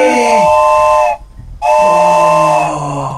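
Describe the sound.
A wooden train whistle imitating an old steam locomotive sounds two long, loud, chord-like blasts split by a brief pause, with a breathy, airy quality.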